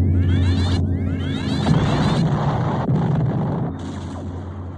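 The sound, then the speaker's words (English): Mega laser turrets firing aboard a Battlestar in Battlestar Galactica: a dense, sustained barrage of sweeping electronic zaps and blasts over a steady low rumble, loud throughout. “Aft laser turrets report an attacking Battlestar. Fire aft mega lasers.”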